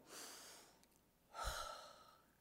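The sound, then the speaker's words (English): A deep breath taken by a preacher during a sermon, two long, faint, airy breaths, the second stronger, with no talking. “Take a deep breath with me.”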